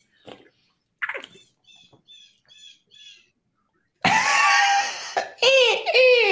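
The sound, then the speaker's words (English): Birds chirping: a few faint, short high chirps repeated at a steady pace, then louder, sustained calls with sweeping arched pitch contours. “Shut up, birds.”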